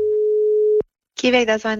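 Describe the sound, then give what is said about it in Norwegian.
A telephone ringing tone sounds once as a steady, mid-pitched hum while a call is placed to an employee, then cuts off; after a short silence a voice begins speaking. “Vi må ta en telefon til en ansatt hos Kiwi.”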